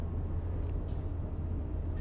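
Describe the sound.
A car driving on a road in Sweden, heading south toward the border of Skåne, with a steady, even low rumble and no breaks.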